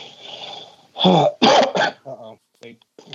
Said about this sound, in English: I was warning you about the cough.